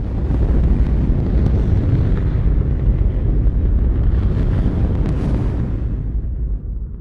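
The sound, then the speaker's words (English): A deep, continuous roar of a rocket's first-stage engines firing at launch, fire blasting from the flame bucket; the loud rumbling rush holds steady for several seconds and thins slightly near the end. “Then you have this huge explosion, and then it's just this fire just shooting out of that flame bucket that, you know, you can just see for miles around.”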